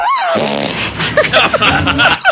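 A forced fart from a woman during a chiropractic adjustment: one loud, long, buzzy blast with a wavering pitch, lasting about two seconds.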